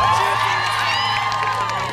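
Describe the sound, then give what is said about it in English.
Audience cheering at a live event celebrating women's achievements, a burst of high-pitched whoops and shouting voices over a crowd roar that is loudest at the start and eases only slightly as it continues. “so cheer not for us, but for yourselves, go on.”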